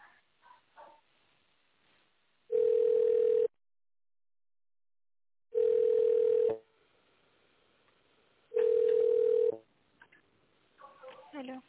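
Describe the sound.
A telephone line tone plays while a caller waits to be connected to reception: three long, steady, mid-pitched beeps at even intervals separated by silence, with brief faint sounds at the start and end.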